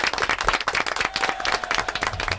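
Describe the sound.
Group applause after a basic singing-scales exercise in a music lesson: dense, steady clapping with many overlapping hand claps, fairly loud and unbroken from start to finish.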